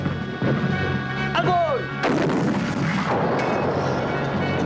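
Artillery guns fire on a target along a river's left bank, producing a few heavy, booming blasts. A falling whistle sounds between the first two, and each boom leaves a rumbling tail.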